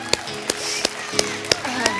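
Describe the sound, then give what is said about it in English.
Rhythmic hand-clapping from a church audience applauding the Lord: six sharp claps spaced evenly over a steady background. “Yeah, let's go and applaud the Lord.”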